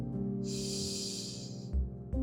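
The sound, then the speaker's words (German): A deep breath drawn in through the nose during a guided relaxation exercise: a steady, airy hiss lasting just over a second, set over soft sustained background music. “Nehmen wir noch einen gemeinsamen Atemzug. Atme tief durch deine Nase ein”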